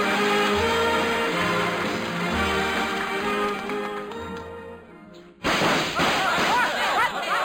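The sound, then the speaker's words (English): A gunshot in a western comedy scene where a sheriff is shot: one sharp burst cuts in as the preceding song fades, followed by loud, dense noise. “What's that? Sound like somebody got shot. Another sheriff, probably.”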